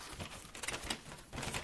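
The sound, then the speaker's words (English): A magnetic drawing board is written on and cleared, giving dense, scratchy clicking and rasping that comes in uneven bursts without a pause. No one speaks. “For those listening, this is one of those magnetic boards.”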